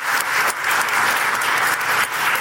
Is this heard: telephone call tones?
no